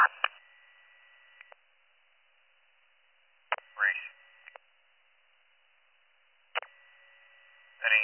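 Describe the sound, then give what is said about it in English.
Dispatch radio alert tones calling more rescue units to a scene: three bursts of steady, high electronic tones separated by silent gaps, each cut off with a radio click and followed by short chirping squelch. “Put on another set of tones, please, for more help at the scene.”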